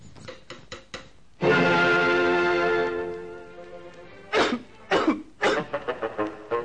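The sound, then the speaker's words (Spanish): Coughing in an old black-and-white animated TV advert for cough lozenges: a few quick dry coughs, then a long strained, rasping bout, followed by more sharp coughing bursts and a run of smaller hacks. “Evita la tos con pastillas Penetro.”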